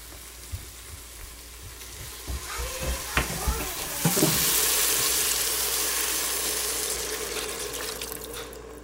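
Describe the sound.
Liquid poured into a hot pan of seared meat for a stew, with a few soft clinks and then a bright hissing sizzle that swells and slowly eases over several seconds.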